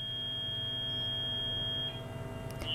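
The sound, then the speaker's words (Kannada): An electronic tone sounds as a phone call disconnects, a steady high pitched line over a low hum that cuts off shortly before the end. “ಕರೆ ಕಟ್ಟಾಗಿದೆ ಅಂತ ಅನಿಸುತ್ತೆ.”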